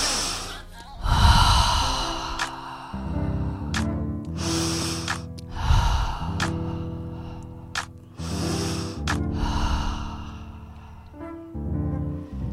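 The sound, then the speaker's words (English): Several deep breaths, drawn in through the nose and let out through the mouth, come as soft rushes of air over sustained musical chords in a guided breathing exercise. “Let's take a deep breath through our nose and exhale through our mouth.”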